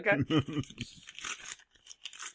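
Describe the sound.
Crinkling and tearing of plastic blister card packaging as a Transformers Generation 2 handheld video game is opened. A voice speaks at the start, then several short, sharp rustling bursts follow at a moderate level.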